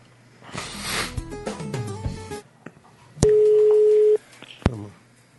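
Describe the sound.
Telephone ringback tone on an outgoing call: a single steady buzzing tone of about a second, after rustling and voices and followed by a sharp click.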